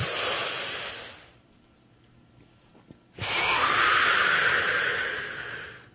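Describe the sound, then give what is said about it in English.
A deep breath in and out, heard as two long, airy rushes of breath with a quiet pause between them. The second breath is longer and louder. No voice is heard. “I want you to just take a deep breath that goes from your toes all the way up to your head.”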